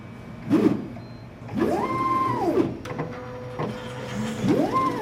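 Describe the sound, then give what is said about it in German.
Mechanical whirring from a white pipetting robot with two long gripper arms in a laboratory: a few motor whines that sweep up and down in pitch over a steady low hum, with faint clicks between the movements. “Leonie Kauling steht vor einer weißen Maschine mit zwei langen Greifarmen. Über ein Display gibt sie letzte Anweisungen. Dann schaut sie auf und erklärt. Das ist jetzt unser Pipettierroboter,”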